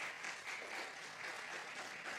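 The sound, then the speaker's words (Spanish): A church audience gives a short burst of applause during a Spanish-language sermon. The clapping is steady, even and dense, faint overall, and lasts only a couple of seconds. “Si va a aplaudir, dele a Jesús buen aplauso.”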